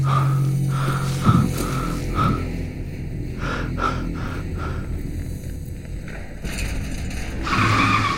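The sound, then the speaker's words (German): A car brakes at a red light on empty streets, giving a drawn-out tire screech. The rough, continuous squeal carries a steady whine and holds a fairly even loudness for several seconds. “Obwohl keine anderen Autos mehr fahren, bremse ich bei roten Ampeln ab.”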